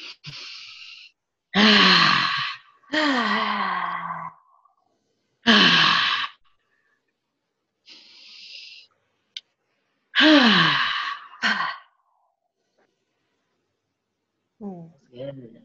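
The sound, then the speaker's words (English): Deep cleansing breaths, taken as loud, breathy exhales in a series of separate bursts, several carrying a voiced sigh that falls in pitch, with short quiet gaps between them and a fainter breath at the end. “Take three big cleansing breaths, and you are here now in the body.”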